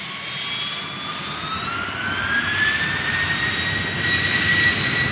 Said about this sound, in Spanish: Todos abordaron el avión y disfrutaron de un cómodo viaje.